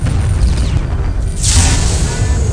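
A missile explosion in a video game erupts as a loud, deep boom, a bright burst of crackling noise swelling midway over a continuous heavy rumble.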